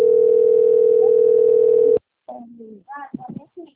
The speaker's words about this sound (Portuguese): Está ligando lá para outra pessoa.